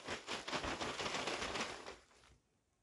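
Paper name slips rustle as they are shuffled before a draw: a dense, crackling rustle lasts about two seconds, then fades to quiet. No voices are heard.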